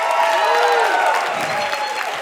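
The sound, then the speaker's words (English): An audience applauds to welcome a panel to the stage. The clapping is a steady, dense wash, with a few cheers and voices mixed in, fairly loud throughout. “Oh, come on, give them another clap.”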